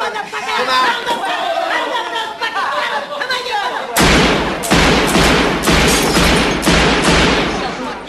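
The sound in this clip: Gunshots in a film scene: several sharp, loud bangs burst out from about halfway through, after and amid excited shouting voices.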